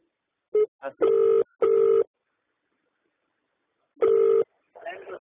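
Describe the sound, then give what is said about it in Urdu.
Telephone tones sound as a call is cut off: several loud, steady mid-pitched beeps in quick succession, a pause, one more beep, then a brief voice. “کتنی ناراضگی کے آپ phone کاٹ رہے ہیں”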